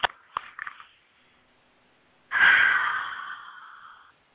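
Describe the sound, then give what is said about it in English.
A big deep breath follows a few short clicks and a near-silent pause. It is a long, breathy rush of air lasting nearly two seconds that gradually fades. “I invite you to just have a nice big breath.”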